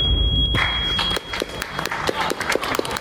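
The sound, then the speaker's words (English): Audience applause after a speech, a brief burst of clapping with a few sharp thuds and scattered cheers, rising out of a short opening sound. “Wow. People applauded.”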